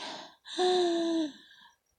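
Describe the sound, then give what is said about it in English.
A deep breath drawn in, preceded by a short breathy sound, then a loud wheezy gasping inhale with a steady voiced tone lasting about a second before trailing off; no talk. “Breathe in.”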